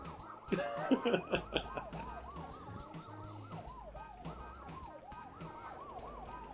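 Ambulance siren wailing in a video game with a vehicle full of passengers: continuous up-and-down sweeps over a low engine hum, with a few louder knocks early on.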